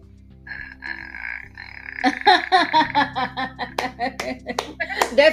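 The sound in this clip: A voice imitates the croaking, popping death rattle from the horror film The Grudge: a drawn-out throaty tone gives way to a long run of rapid guttural clicks and pops, uneven in rhythm and fairly loud.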